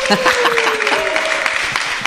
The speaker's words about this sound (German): Und ich finde auch, den Beifall hat er verdient.